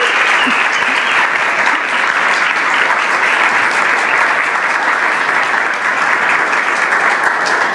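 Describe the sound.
An audience at a faith gathering gives steady, dense applause to welcome a speaker. The even clapping stays loud and unbroken for nearly eight seconds.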